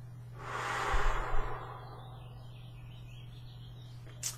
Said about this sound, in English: Take a deep breath.